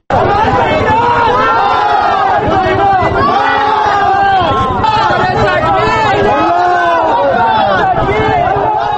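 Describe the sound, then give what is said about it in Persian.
Hundreds of Kabul residents protest outside the Iranian embassy against executions of Afghans in Iran: a dense crowd of shouting, chanting voices that stays loud and unbroken from start to finish. “این صدای صدها تن از باشندگان کابل بود که با گرد همایی اعتراض آمیز در مقابل سفارت ایران اعدام افغانهای زندانی در ایران و سایر موارد بدرفتاری با مهاجرین افغان در آن کشور را محکوم کردند.”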